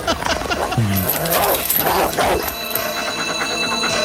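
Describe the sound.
A dog barks a few times amid busy mechanical clanking and ratcheting in a rough neighborhood of an off-world colony, the barks fairly loud and mixed into the steady clatter.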